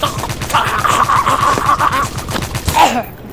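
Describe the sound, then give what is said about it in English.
Rapid gunfire of rubber bullets: a long, loud burst of many shots in a fast, steady rhythm with a high whine above it, ending abruptly. “That was like a lot of bullets. Perhaps I got carried away.”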